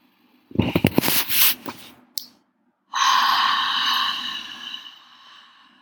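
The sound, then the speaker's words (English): A deep inhale in a relaxation breathing exercise: a short burst of choppy, crackly breath noise, then a long steady airy breath that slowly fades. “Take this third inhale.”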